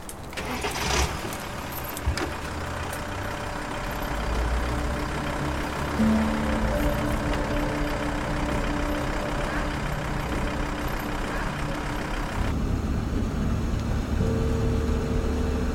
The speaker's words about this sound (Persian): اونها رو سوار مینیبوس میکنن.